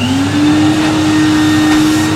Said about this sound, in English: When I was a kid, the most terrifying sound I could possibly imagine was the vacuum cleaner.